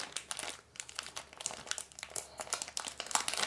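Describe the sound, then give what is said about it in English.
Crinkling plastic wrapper being peeled off a candy necklace, with many sharp, irregular crackles and rustles in quick succession, fairly quiet and heard alone. “Ooh, peel the top part a little bit more so it doesn't, like... We don't want to damage the candy.”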